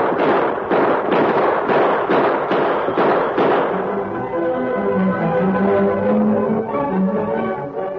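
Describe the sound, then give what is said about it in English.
Gunshots ring out in a shootout between mounted men: a rapid series of sharp, loud cracks that then gives way to music. “Gun him down, Tar. Come on, fellow. You don't get me. Shoot him, Tar.”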